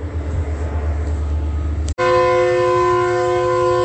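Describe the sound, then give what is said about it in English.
A MetroLink commuter train arriving eastbound on the tracks. A low, steady rumble breaks off abruptly, then a loud, sustained, multi-tone horn holds steadily to the end. “And MetroLink is arriving going eastbound at 9 p.m.”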